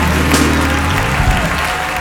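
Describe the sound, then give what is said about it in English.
A church audience claps along in a dense, loud, continuous patter of many hands, steady from start to finish over low sustained tones. “Come on, clap your hands, everybody.”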